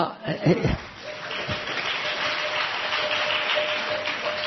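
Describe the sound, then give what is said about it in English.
Audience applause for a speaker swells into a steady wash of many hands clapping that lasts to the end. A brief bit of talk and chuckling comes just before it. “I didn't say that to get the applause.”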